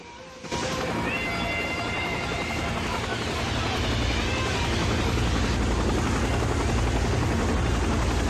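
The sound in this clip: A helicopter lifts off above a crowd near a stage and stands. Its rotor roar jumps in suddenly after a quieter start, then holds as a loud, dense, continuous thrum.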